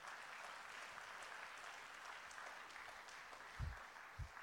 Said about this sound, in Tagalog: Kaya pwede bang palakpakan natin ng Panginoon?